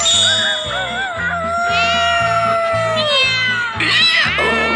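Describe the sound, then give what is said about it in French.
Cat-like meowing and yowling, wavering and rising in pitch over a steady, rhythmic musical backing, from a children's fairy tale scene in which a donkey, dog, cat and rooster sing together; only the cat sounds are evident. “L'âne se mit à braire, le chien à aboyer, le chat à miauler, et le coq a lancé des cocoricos à plein poumon.”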